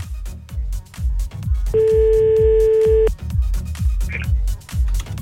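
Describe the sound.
A telephone call being redialed: one steady ringing tone lasts about a second and a half over a loud, regular, low thumping beat.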